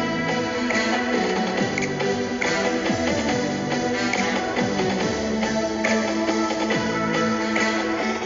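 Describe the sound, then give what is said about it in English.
Royalty-free instrumental music tried out as an intro: a dense, continuous bed of layered sustained tones with occasional sliding low notes, steady in loudness throughout and with no voice. “I'm just messing around with royalty-free music for, maybe an intro to this podcast.”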